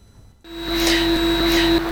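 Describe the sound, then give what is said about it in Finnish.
Air-conditioning hum in an art collection centre starts up, a loud, steady droning whir with a clear sustained tone that holds even and unbroken to the end. “kohta siellä alkaa humina, koska siellä kokoelmakeskuksessa pitää olla ilmastointi ja kaikki lämpötilat kunnossa, siellä taide pysyy hyvänä, eli humina johtuu siitä.”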